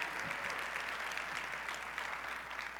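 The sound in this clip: A church audience at Vineyard North Phoenix applauds to welcome a guest speaker, producing a steady, fairly faint wash of clapping that continues evenly throughout with no clear voices.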